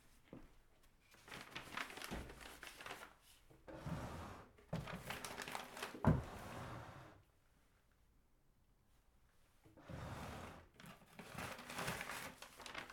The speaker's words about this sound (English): This is putting paper bag away in drawer.